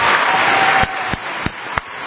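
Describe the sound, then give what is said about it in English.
Applause for first responders and frontline hospital workers: a dense burst of clapping that cuts off after about a second, followed by several sharp, isolated claps spaced at a fairly regular pace. “Important more than ever to get that applause.”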